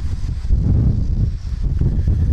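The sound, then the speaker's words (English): Wind blows outdoors by the river on the western edge of Tennessee, looking across to Arkansas, as a steady, loud, low rumbling buffet that continues unbroken with small surges throughout. “And this is probably one of the most scenic spots down here, aside from the wind and all. And if this wind keeps up, I'll keep this brief”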